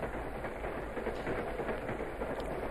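A sleeper train carriage travelling to Madrid gives a faint, steady rolling rumble with a soft, continuous rattle and no talk over it.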